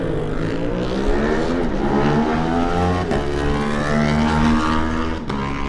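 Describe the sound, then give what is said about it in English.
Loud racing-motorcycle engine of an Aprilia racing bike at a road race, revving hard in a continuous snarl with rising pitch sweeps and a few brief breaks like gear changes, with no talk over it. “That's Michael Sweeney on the Aprilia on the MSR racing bike.”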